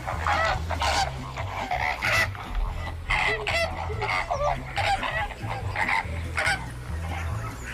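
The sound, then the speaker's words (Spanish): Flamingos calling in a dense, continuous chorus of nasal, goose-like honks and gabbling cries that overlap throughout at a steady loudness. “¿Flamenco? Flamenco.”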